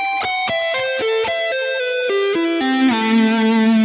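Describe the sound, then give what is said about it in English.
Distorted rock electric guitar plays a lick with a fret wrap muting the strings. Many quick, cleanly separated notes step downward in pitch and end on a longer sustained low note, with no extra string noise. “So in this particular thing, I'm actually deadening out the string so you're not getting excess noise here with this fret wrap here. And so what I'm doing is I'm playing this.”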